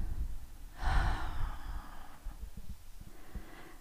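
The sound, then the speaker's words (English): A deep breath drawn in and let out, heard as a long, airy rush of breath, then a quieter, shorter breath after a pause, with no talking. “I want you to take a deep breath in and say, I. And when you breathe out, I want you to say, am.”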